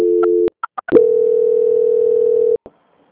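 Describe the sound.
Steady telephone tone during a call transfer, cut by a short gap with a few quick higher beeps, then the same even tone returns and holds before stopping abruptly.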